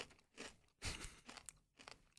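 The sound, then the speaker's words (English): Crunching of Tapatio-flavored Doritos tortilla chips being chewed: several crisp, irregular bursts of crackle, the strongest near the middle, all fairly quiet with no talking. “We just had a handful of Tapatio Doritos,”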